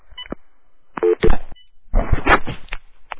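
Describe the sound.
Touch-tone telephone keypad beeps for a prank call, a few short dialing tones among handling clicks and rustles, with quieter noises between them.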